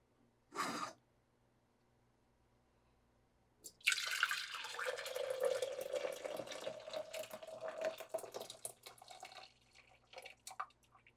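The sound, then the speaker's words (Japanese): Chilled tea poured into a glass jar packed with fruit: after a short splash near the start and a pause, a steady liquid pour runs for about seven seconds, soft and continuous with a gentle gurgle. “あとは冷やしたお茶を果物が詰まったこの瓶に入れれば、”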